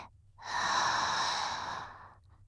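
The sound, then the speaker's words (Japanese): One slow, deep breath drawn in through the nose as part of a relaxation exercise, a soft airy rush that swells and then fades over about a second and a half, with no voices. “ゆっくり深呼吸してみてください。一緒にやっていきましょう。鼻から吸って”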